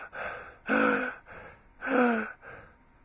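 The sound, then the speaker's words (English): A person imitates blowing breath out very hard, producing forceful voiced huffs: two loud, breathy puffs stand out among a few softer ones, each with a rough, throaty tone. “walked across to me, and blowed her breath very hard, like this.”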